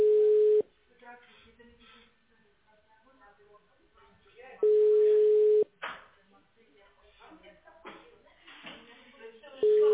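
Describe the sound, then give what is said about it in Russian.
A telephone ringback tone sounds while an automated call to a patient connects. It is a steady, mid-pitched tone in two full bursts of about a second each, with a third starting at the end. Faint voices fill the gaps between bursts. “Ожидайте. Соединяем с пациентом.”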